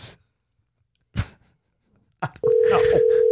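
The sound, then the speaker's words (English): A steady telephone dial tone while a call is being placed: after a few brief clicks, an unbroken tone starts and holds at an even level to the end. “I'm so glad we're calling Scott.”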